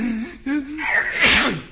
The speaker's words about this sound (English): Beetles don't claim him and neither do the fleas, because he makes everybody sneeze.